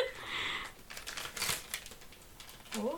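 A gift wrapped in lots of tape is unwrapped, with faint, irregular crinkling, rustling and tearing of paper and tape in scattered bursts.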